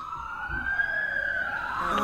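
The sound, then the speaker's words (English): A police siren wails faintly in the background as one steady tone that slowly rises and then falls back in pitch. “There's police sirens in the background.”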